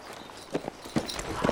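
Horse hooves clip-clop as a rider heads out, a few faint, uneven knocking hoofbeats over a steady noisy background.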